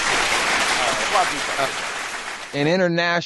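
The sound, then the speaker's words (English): Applause from a crowd, a dense steady clatter of clapping filling the first two and a half seconds, then fading as a voice begins speaking over the tail end. “All right, I like that applause.”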